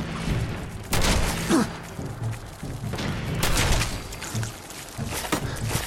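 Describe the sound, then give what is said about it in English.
Gunfire aimed at the player in a video game: a few loud, sharp bursts of shots stand out over a steady, rumbling game soundscape, with no talk. “Are they, like, shooting something at me?”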